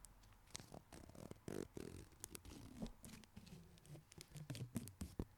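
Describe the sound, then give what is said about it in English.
Paper straw wrapper being handled: faint, soft crinkling and papery rustles in quick irregular patter, with brief scratchy bursts and no talking. “This is the sound of a paper straw wrapper.”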